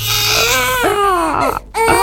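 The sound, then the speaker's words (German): A baby cries loudly in strained, wavering wails, a few long cries rising and falling in pitch, broken by a brief gap near the end. “ein Baby weint im Supermarkt, im Café oder im Zug”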